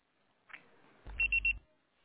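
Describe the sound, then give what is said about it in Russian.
Voicemail beep before a message is recorded: a faint click, then three short, evenly spaced high beeps over a low buzz, with quiet before and after. “Ваш звонок был переадресован на голосовой почтовый ящик. Можете оставить сообщение после сигнала.”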